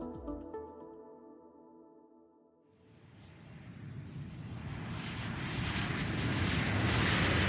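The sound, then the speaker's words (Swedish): Roar of a US Airways passenger airplane taking off from LaGuardia in January 2009, a broad engine rush that swells steadily louder. Soft music fades out just before the engine noise rises. “Klockan närmar sig 3:30 på eftermiddagen den 15 januari 2009 när US Airways flight 1549 lyfter från LaGuardia.”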